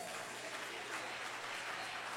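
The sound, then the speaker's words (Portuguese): A church audience clapping, dense and continuous applause that stays even throughout with no breaks, fairly quiet overall. “mais palma alegre para o Rei Jesus.”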